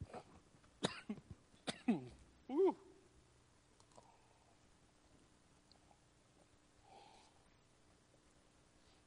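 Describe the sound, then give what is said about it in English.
Throat clearing and coughing from someone with something lodged in their throat: a few sharp, harsh coughs and throat-clearing bursts in quick succession early on, followed by quiet with only faint sounds. “It's going to be one of these days, apparently. Something lodged in my throat.”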